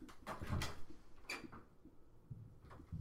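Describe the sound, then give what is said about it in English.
A cat scratching at a door, heard as faint, irregular bursts of dry scraping and scuffing, a few close together at first and then sparser, with quiet gaps between them. “there was my cat scratching at the door. She's going to be annoying me all episode, I can tell.”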